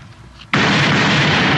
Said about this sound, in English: So, yeah, they're real dynamite in this.